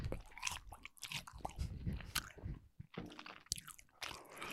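A chocolate-covered strawberry coated in real chocolate is chewed with soft, wet, squishy mastication and light crunching. The chewing is quiet and continuous, with no talking.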